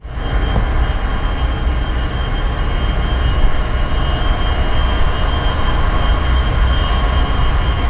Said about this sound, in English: Here's the sound of the SpaceX Colossus 1 facility in Memphis, recorded by Richard Banks at WBHM in Birmingham, Alabama.